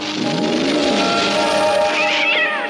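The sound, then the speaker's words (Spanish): A frightened cat hissing and yowling in a loud, harsh, unbroken cry, with breathy noise over a strained tonal wail that turns higher and wavers near the end. “El gato bufa asustado como si lo hubiera oído”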